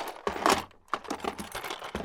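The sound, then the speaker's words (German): Tools being dropped into a storage box, a faint run of sharp clicks, knocks and light rattles at an irregular rhythm. “Und jetzt geben wir unser Werkzeug in die Box.”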